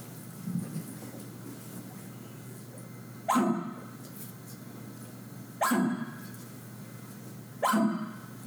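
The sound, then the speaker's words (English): Three deep, dog-like alarm barks from a female elk, short sharp calls spaced a couple of seconds apart over a quiet, steady background hiss. “So a cow bark is more the deep, sounds like a dog bark, whereas a bull bark is the high, shrill-pitched bark. So a cow bark sounds like this.”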